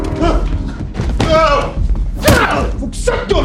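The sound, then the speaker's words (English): Heavy thuds as a gun is smashed into a man's face, dull blunt impacts within a loud, busy jumble of noise. “Jacob grabs the gun and smashes Mike in the face.”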